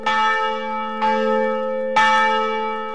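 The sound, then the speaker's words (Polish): A large church bell weighing over half a ton rings at Wawel in Kraków, striking three times about one second apart, each stroke loud and bright with a long, humming tone that overlaps the next. “Po uroczystościach na Wawelu zabrzmiał również najmłodszy dzwon Jan Paweł II, ufundowany z okazji kanonizacji papieża. Ważący ponad pół tony kolos uderza 60 razy na minutę.”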